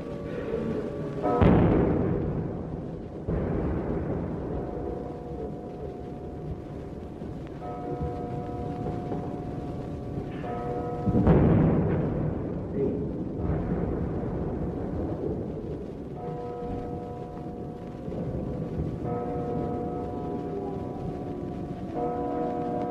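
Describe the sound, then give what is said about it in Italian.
Wartime bombardment in an archival recording: two heavy booming blasts and a few weaker thuds rise out of a continuous low rumble, with faint steady tonal hum underneath. “vi iniziamo a far ascoltare questo, che è un bombardamento di fatto, esattamente di quei giorni.”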